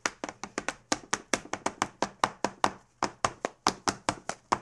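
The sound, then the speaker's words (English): Rapid clicking and tapping of laced-up boots in a dance: a long run of sharp, evenly spaced percussive steps, loud and alone, with no talk. “And these are special boots that I could probably make a lot of noise. Let's see what I can do.”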